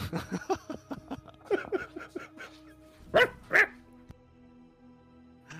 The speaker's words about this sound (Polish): Przepraszam, muszę psa wpuścić.